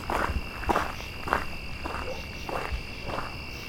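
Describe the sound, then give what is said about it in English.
Footsteps thud in a steady, even rhythm while walking onto a boardwalk through a swampy wetland, with a constant high chirring of insects and frogs running under every step. “About to walk onto the boardwalk going through the wetter part of it.”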